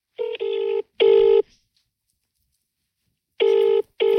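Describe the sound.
A phone call rings over speakerphone with a steady electronic double-ring pattern: two tonal bursts, a long pause, then two more, each burst a clean buzzing tone with no voices.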